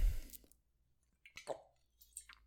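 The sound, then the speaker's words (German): Someone drinks right beside a microphone, making faint wet sips and swallows. A few soft squishy clicks are separated by stretches of near silence. “das Geräusch war wahrscheinlich schön für euch, hier neben dem Mikro zu trinken”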